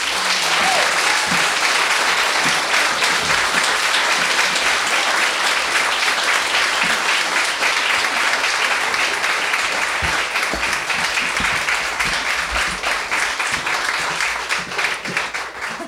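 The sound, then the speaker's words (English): An audience at a live interview recorded at a Detroit show bar bursts into applause, a dense, loud, steady wash of clapping that holds for about sixteen seconds and thins slightly at the end. “Please put your hands together for Susan Rogers.”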